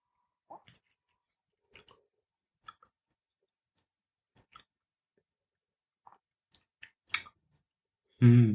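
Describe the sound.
Quiet mouth clicks and lip smacks while tasting a sip of Bruichladdich single malt whisky, a few sparse, faint clicks separated by silence.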